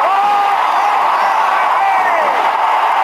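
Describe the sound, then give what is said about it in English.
A loud, unbroken roar from a 1954 baseball crowd cheering Willie Mays' catch deep in center field, with a voice talking over the steady cheering. “Willie Mays just brought this crowd to its feet with a catch, which must have been an optical illusion to a lot of people.”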